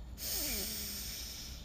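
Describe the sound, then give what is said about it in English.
A slow, airy human breath, a faint steady hiss with a short low voiced tone falling in pitch near its start, alone and without speech. “Breathe in and out.”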